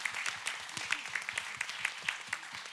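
Applause from an audience at a question-and-answer session, moderately quiet, with scattered individual claps standing out against a steady patter for nearly three seconds.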